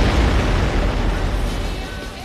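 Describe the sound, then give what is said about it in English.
A mountain erupting in an explosion sound effect gives a loud, deep, sustained roaring rumble that fills the whole range and slowly fades. “Stand back, everybody. Is about to explode. Oh, God, it's going to blow.”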